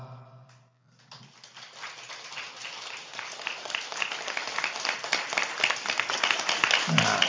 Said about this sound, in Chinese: 好，既然你们鼓掌了，我就给你们讲个笑话啊。